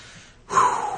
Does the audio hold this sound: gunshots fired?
no